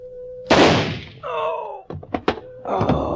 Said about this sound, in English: The gun went off.